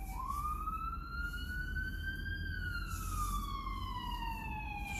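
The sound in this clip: An ambulance siren wails loudly and steadily, climbing in pitch over the first half before gliding slowly back down, with a low rumble underneath and no voices.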